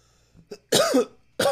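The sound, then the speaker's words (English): Coughing into a microphone at a freestyle rap session's sound check: two loud, harsh coughs, the second cut short, preceded by a few faint throat sounds. “I'm gonna put the coughing into the mic”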